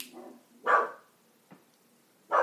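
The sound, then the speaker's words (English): Dogs barking, a few sharp barks in irregular bursts, two of them loud and the others fainter and briefer, with no talk over them. “And I'm sorry if you hear all this dog barking.”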